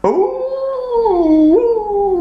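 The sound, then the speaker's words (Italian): A single loud wolf howl, long and sustained. Its pitch wavers, dips lower, then jumps back up near the end before holding steady. “Ecco che incontrarono il lupo.”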